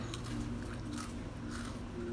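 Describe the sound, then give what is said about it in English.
Soft chewing and crunching of peanut butter and graham cookies, a faint, steady stream of moist bites and mastication with no talking. “I'm currently eating peanut butter and graham cookies.”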